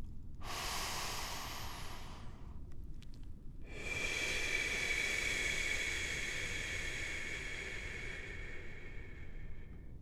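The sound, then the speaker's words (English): Deep breathing during a guided relaxation exercise: a slow, airy breath in, a short pause, then a long, soft breath out that hisses steadily to the end. No talking is heard. “I want you to take a deep breath in and a deep breath out.”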